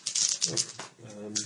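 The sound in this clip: Dice rolled for a repair roll in a tabletop game, a quick rattling clatter of sharp clicks at the start and again near the end, with voices talking over it.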